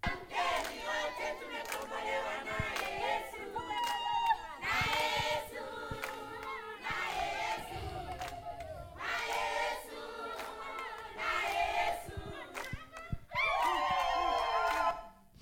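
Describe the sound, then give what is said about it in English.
Congregation at a house church singing praise to God, a group of voices rising in loud, phrased bursts with short gaps between lines and crowd noise underneath. “Just listen to them singing praise to God, welcoming us.”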